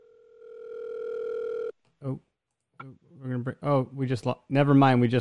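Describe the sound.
A steady telephone line tone, the signal of a caller coming in, holds at an even level for nearly two seconds and then cuts off abruptly. After a short gap, people begin talking.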